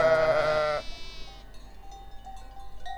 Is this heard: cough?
no

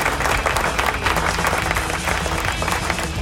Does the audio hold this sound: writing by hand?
no

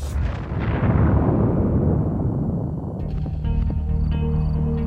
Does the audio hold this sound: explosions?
yes

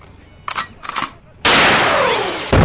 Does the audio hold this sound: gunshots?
yes

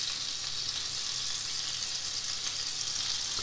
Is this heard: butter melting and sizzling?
yes

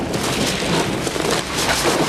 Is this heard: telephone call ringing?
no

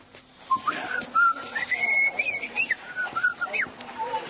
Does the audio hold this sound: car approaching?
no

